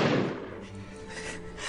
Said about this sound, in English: That was a loud gun.